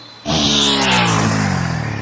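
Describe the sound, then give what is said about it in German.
A motorcycle speeds past along a forest path: its engine bursts in abruptly and loudly, then holds a continuous roaring drone whose pitch drops slightly as it goes by. “Hat sich auch gleich ein Motorrad besorgt. Und mit dem fegt sie jetzt hier lang?”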